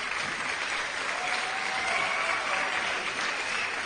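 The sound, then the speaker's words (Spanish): An audience applauding in a dense, even wash of clapping that holds steady in loudness throughout, with no voices standing out. “Aplauso para las cuatro que vienen.”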